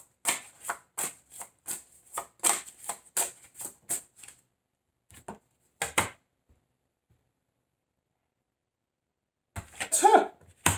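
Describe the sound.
Tarot cards are shuffled in a rapid run of many crisp, papery slaps, followed by a few isolated snaps as cards are drawn, then a final louder burst.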